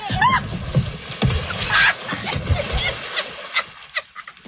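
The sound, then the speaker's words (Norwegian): Water splashing and sloshing as two people tumble in while clumsily boarding a small boat, a rough churning burst with scattered knocks, mixed with a short squeal and voices. “Det blir en ufrivillig dukkert for deg begge to.”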